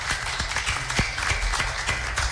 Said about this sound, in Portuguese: Gente, vamos aplaudir Wagner Gomes, esse homem maravilhoso, esse amigo dos seus amigos.